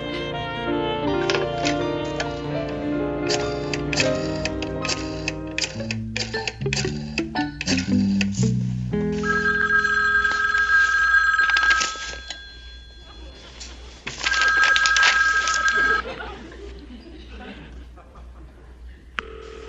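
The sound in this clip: Telephone ringing in two long, steady electronic bursts separated by a pause, coming after a busy run of varied tones and clicks.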